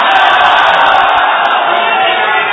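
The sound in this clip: A crowd of Islamic brothers at a Madani Muzakra religious gathering chants a religious slogan. It is a loud, sustained roar of many voices shouting together, steady in level throughout.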